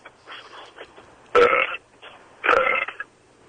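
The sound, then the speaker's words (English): Two loud, deliberate burps produced on command, each a rough, gravelly belch lasting under half a second, separated by a short pause, with faint breathy sounds around them and no speech. “I'm the only one of us on the show who can burp on command. That's shocking to me. I just assumed it was something everybody could do.”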